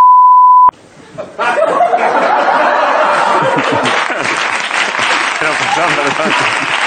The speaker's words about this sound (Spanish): Dilo y luego ponemos un pitido por encima.